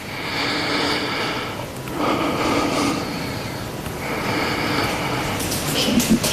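A patient breathes deeply through an open mouth during lung auscultation, producing a few long, airy rushes of breath separated by brief pauses.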